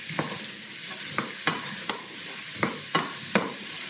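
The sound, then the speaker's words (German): A frying pot stirred with a self-carved cherry wood spoon gives a steady low sizzle, broken by several sharp wooden scrapes and clacks against the pot at irregular intervals. No one speaks. “Ich denke bei sowas immer, das muss ich jetzt ununterbrochen umrühren, weil sonst brennt es unten an.”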